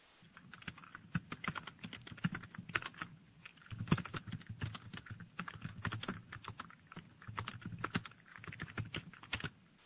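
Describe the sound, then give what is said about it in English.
Someone types a question on a computer keyboard, a steady run of many quick plastic key clicks in irregular bursts with brief pauses, heard alone without talk. “Type this question here.”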